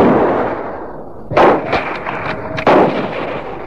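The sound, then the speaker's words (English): Gunshots while hunting with a reloaded gun: two sharp, loud blasts about a second apart, each trailing into a long rumbling decay, with no voices. “Now you're shooting.”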